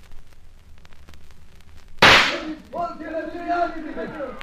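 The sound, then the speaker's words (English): A single sharp gunshot fired from a gallery above a nightclub floor show: a loud, abrupt crack that breaks a quiet stretch and decays over a moment. “It is us you're shooting at.”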